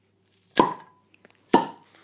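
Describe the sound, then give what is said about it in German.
Two 0.33-litre swing-top bottles of Kellerbier are popped open, giving two sharp, separate pops roughly a second apart, each with a brief ringing tail and only faint rustling between them. “sind schöne Plöppflaschen, 033. Mhm. Also ich würde sagen, wir lassen jetzt mal plöppen und dann gehen wir gleich mal einen Geschmackstest ab.”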